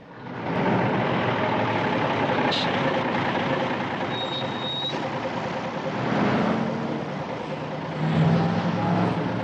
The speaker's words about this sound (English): The Acme bathroom fixtures truck roars along the highway.